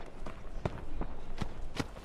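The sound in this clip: Footsteps of someone running away: a few quick, heavy thuds strike over a steady low background rumble, with no voices.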